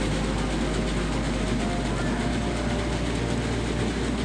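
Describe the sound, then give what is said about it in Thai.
A fish scaling machine knocks the scales off small fish with a steady, loud, dense rattling roar that never lets up. “เครื่องนี้คือเครื่องตีเกล็ดครับเกล็ดมันถูกขอดด้วยการตีออกตอนนี้นั่นเองคือปลามันตัวเล็กอ่ะจะให้ไปขอดเกล็ดทีละตัวคือยากลำบากมาก”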